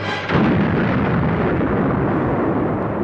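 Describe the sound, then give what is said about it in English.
A massive explosion of a huge space station: a sudden loud blast that swells into a sustained, deep roaring rumble and continues to the end. “The menacing Death Star has exploded in a blinding light more powerful than 100 suns.”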